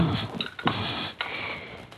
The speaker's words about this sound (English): Now I place these leaves into the mortar and grind them up.